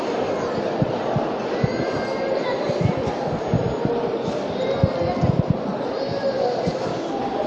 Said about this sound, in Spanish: Pues lo podéis escuchar, esas palmas, y empieza a moverse la cruz guía flanqueada por dos faroles en la Hermandad de la Santa Cena, saliendo a las calles de Jaén.